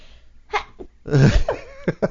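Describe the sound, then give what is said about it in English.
A loud, abrupt sneeze bursts out, with a few shorter breathy sounds around it. “I think it's every day about the same time you sneeze.”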